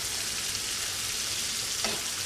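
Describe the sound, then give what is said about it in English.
Food sautéing in a pan, a steady, bright sizzle that holds constant throughout with no talk. “So we'll let this saute for a little bit.”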